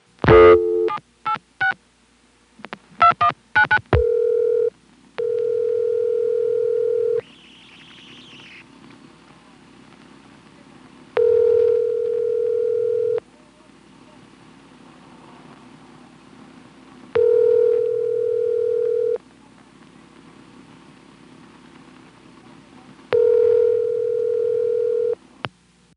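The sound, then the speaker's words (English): Touch-tone dialing into a Stromberg ESC telephone exchange, a quick run of dial tones, then the ringback: four steady, even tone bursts with quiet gaps between them, alone on the line. “When you call a working number in a Stromberg ESC, it rings immediately, but then falls into an unrelated ring cycle.”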